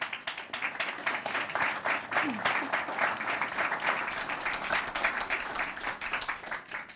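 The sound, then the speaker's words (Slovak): Audience applause at a talk about an anti-corruption foundation, a dense, sustained wash of many hands clapping at an even, fairly loud level for the whole stretch. “nemusíte tlieskať.”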